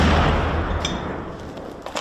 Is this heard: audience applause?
no